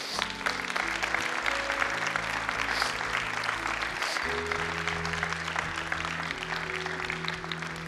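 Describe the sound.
A church audience applauds to welcome a family. Steady, dense clapping fills about eight seconds at an even level, with low sustained tones underneath.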